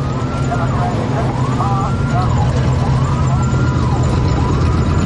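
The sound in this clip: Fire truck sirens wail as the trucks arrive at night beside a partly collapsed building at a fire, loud repeated rising and falling sweeps over a heavy engine rumble, with a voice talking over them.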